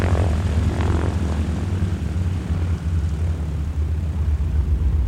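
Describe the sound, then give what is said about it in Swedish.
A multi-engine propeller airplane taking off, its engines giving a loud, steady, droning roar with a deep rumble underneath that holds throughout, no voices present. “Rotorbladen börjar snurra och i näsan sticker av olja och bränsle. Planet rullar framåt, framåt, framåt och uppåt.”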